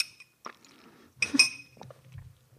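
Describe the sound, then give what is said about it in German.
A glass clinks as someone takes a quick sip of orange juice, with small taps and soft gulping and swallowing sounds before and after the bright clink. “Kurz noch einen Schluck O-Saft.”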